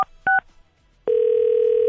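Telephone keypad dialing: a couple of short, sharp touch-tone beeps in quick succession, followed after a brief pause by a steady, continuous line tone that holds to the end. No voices are heard.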